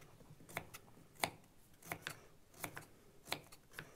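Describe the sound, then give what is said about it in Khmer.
Knife chopping a carrot into small slices: several crisp, quiet knocks on a board come at an uneven pace, sometimes in quick pairs, over faint background hiss. “ឥឡូវនេះយើងចាប់ផ្ដើមហាន់ការ៉ុតគឺយើងពុះវាទៀតហើយការ៉ុតមួយចំហៀងហើយយើងត្រូវការហាន់ការ៉ុតគឺរៀងចំណិតតូចតូចដូចគ្នា”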